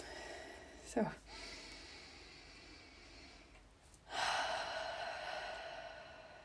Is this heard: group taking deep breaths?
yes